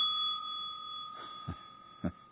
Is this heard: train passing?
no